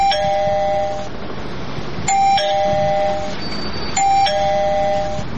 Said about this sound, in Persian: اوی راستی این زنگ دارن.